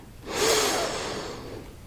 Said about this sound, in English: Breathe in. Breathe out. Great. Breathe in.